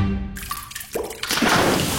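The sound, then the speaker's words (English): Water drips from a plumbing leak, a few clear drips giving way to a louder, hissing rush of flowing water. “When the water starts flowing where it shouldn't, you need help now.”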